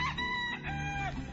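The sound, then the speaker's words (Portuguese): A rooster with a troubled, strained throat crows once, a long wavering call with a rough, reedy edge that rises in the middle and trails off, fairly faint. “Ah, mas eu adoro ouvir o galo cantando logo de manhãzinha.”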